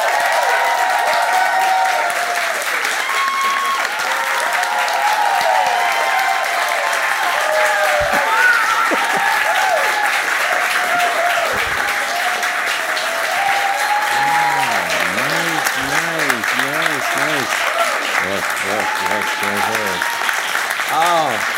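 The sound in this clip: Audience applause in New York welcoming an actor guest on stage: dense, steady clapping that stays loud for over twenty seconds, with a voice speaking over it toward the end.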